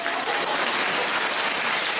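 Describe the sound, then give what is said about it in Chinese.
Audience applause: a short, steady burst of dense clapping from many people, holding an even, fairly soft level throughout. “鼓掌。”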